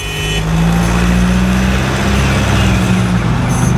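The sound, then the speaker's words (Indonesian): A car engine accelerates hard to beat a yellow traffic light, a loud, sustained roar with a steady low drone beneath it, holding strong throughout with no voices. “Masih bisa tancap gas nih. Pasti bisa. Gaspol.”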